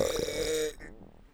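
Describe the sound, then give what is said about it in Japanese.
A single loud, low, voiced burp after drinking strongly carbonated water, lasting under a second, then trailing off into faint noise. “話してる途中ですっごいゲップ出ちゃったね。”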